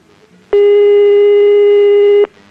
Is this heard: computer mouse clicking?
no